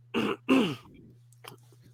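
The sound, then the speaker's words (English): A person coughing twice, two loud, harsh bursts in quick succession over a steady low hum, followed by near quiet. “that wasn't me taking the piss, I actually cough.”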